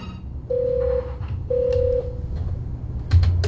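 Telephone dialing tones sound as a caller is connected: two steady, loud beeps, each about half a second long and separated by a pause, followed by faint clicks and a brief low buzz.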